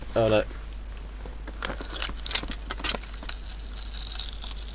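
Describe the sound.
Packaging being ripped off a card game box: a short, loud tearing burst at the start, then scattered crinkles and crackles of plastic and cardboard.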